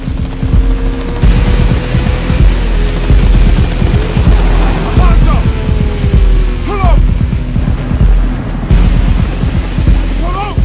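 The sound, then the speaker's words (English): A helicopter flies over a highway, its rotor throbbing loudly and rapidly throughout, with a steady low hum beneath. “Meanwhile, the helicopter flies over the highway, shining a searchlight on Alonzo's Bentley”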